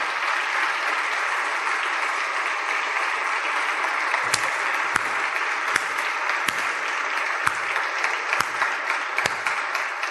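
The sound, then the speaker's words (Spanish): A church audience applauds in a steady, dense wash of clapping that holds for about ten seconds, with sharp individual claps and clicks standing out along the way. “El Señor se merece desde ya que le aplaudamos, que le demos un aplauso.”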